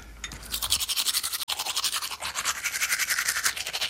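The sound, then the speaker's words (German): Teeth being brushed with a toothbrush and toothpaste, heard as many quick, rhythmic scrubbing strokes that are steady and fairly soft, with no talking. “So, jetzt noch Zähne geputzt. Ja, Zahncreme drauf, so.”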